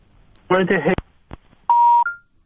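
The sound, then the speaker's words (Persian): A telephone call-in line drops: a brief voice, a sharp click, then a steady electronic tone lasting about a third of a second, ending in a short higher beep. “متاسفانه آقای فهیم رو تلفنشون رو از دست دادیم.”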